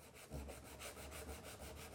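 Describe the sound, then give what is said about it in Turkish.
Sanding of old wooden furniture: soft, steady rasping with quick regular strokes repeating several times a second, heard alone and continuous. “Şimdi iyice zımparalayıp nasıl göründüğüne bakma vakti.”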